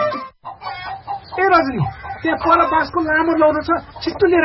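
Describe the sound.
Chickens clucking at a chicken farm, a busy stream of overlapping clucks and short squawks, loud and continuous throughout.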